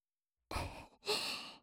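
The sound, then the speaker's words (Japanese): Two soft, breathy blows of gentle ASMR breath in silence: the first short and fading away, the second longer and smoother before trailing off. “まだ軽くフーフーしてるだけなのに小さくピクピクしちゃって。”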